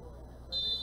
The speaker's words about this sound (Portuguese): E apita o árbitro. Fim de jogo, fim de jogo.